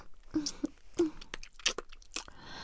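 Someone chews and eats a snack, a few sharp crunchy bites and mouth clicks spaced irregularly with quiet gaps between them.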